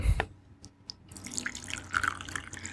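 Water pours close by while coffee is being prepared, starting with a few sharp drips and then settling into a steady, trickling, splashing stream.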